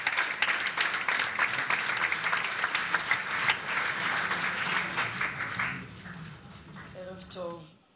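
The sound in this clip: Audience applause at a stage tribute event: dense, steady clapping that fades after about five seconds, with a voice speaking over it and carrying on once the clapping dies.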